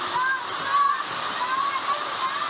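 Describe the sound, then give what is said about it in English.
Rainwater pouring through a leaking ceiling into catch buckets makes a steady, unbroken rush of splashing water with even loudness throughout. “catching the rainwater coming through the ceiling. The clothes are out, things are getting wet.”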